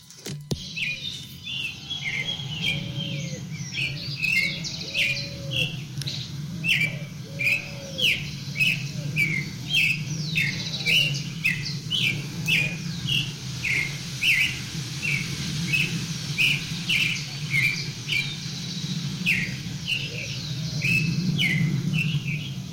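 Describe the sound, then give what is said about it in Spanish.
A small bird chirps over and over, many short, high, bright notes repeating steadily over a constant low background rumble. “es un pajarito que está practicando para su declaración de amor.”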